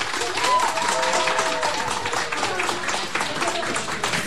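A studio audience applauds to welcome a musician guest at a radio station, sustained dense clapping that stays loud and even for the whole stretch.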